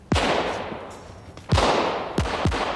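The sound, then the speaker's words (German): Gunshots are fired at a car in a radio drama, as a few loud, sharp blasts, each with a long ringing tail. The first shot stands alone and the rest follow more quickly near the end. “Los, schieß auf alle Fälle mal nach seinem Wagen, damit er beschäftigt ist.”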